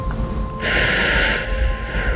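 A deep inhale during a guided relaxation breathing exercise: a soft, airy hiss swells in and then tapers over under a second, over a faint steady background hiss.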